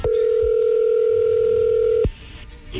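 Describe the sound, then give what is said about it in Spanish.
Telephone dial tone as a call is about to be dialed: a loud, steady electronic tone that holds for about two seconds, then cuts off abruptly, leaving faint background noise. “A ver, vamos a marcarle”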